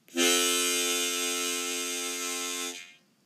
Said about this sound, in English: if I had a full sounding embouchure, my 1-2-3 draw chord would sound like this.